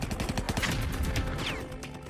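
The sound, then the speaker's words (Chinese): Continuous artillery fire striking defensive fortifications on a mountain: many rapid, sharp explosive reports in a dense, unbroken series at steady loudness. “突然响起了连续性的爆炸声”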